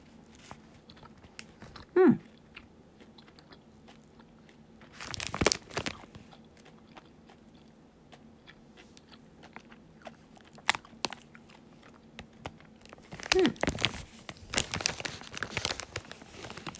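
Eating a sour, orange, dropper-shaped candy coated in tart powder: a few faint crunching and crinkling bursts of chewing, quiet and separated by near silence.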